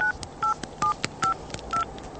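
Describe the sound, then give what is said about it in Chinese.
Touch-tone keypad beeps as a mobile phone number is dialed: five short, even electronic tones in a steady rhythm, with faint key clicks between them and no voices. “他最后一次拨通了金奎的手机，可是对方的手机却和以往一样，还是久久的无人接听。”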